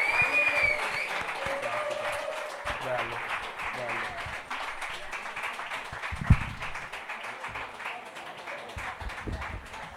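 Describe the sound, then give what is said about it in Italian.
Audience applause after a comedy performance, a dense sustained wash of many hands clapping for the full stretch, steady and fairly loud, with crowd noise and a host's voice faintly mixed in. “facciamo ancora un grandissimo applauso per la performance.”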